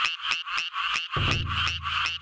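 A Japanese tree frog calls while sitting on a rice-paddy embankment, giving a rapid, even series of short, high, buzzy pulses that repeat steadily throughout.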